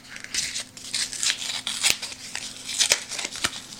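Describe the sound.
Crinkly tearing and peeling as the edges are pulled away from a food item, a run of many dry, papery rustles and rips of moderate loudness, with no talking.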